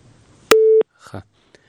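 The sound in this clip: A single steady electronic busy-tone beep sounds after a listener's phone call is cut off. The beep is loud and short, and a few faint, brief sounds follow it.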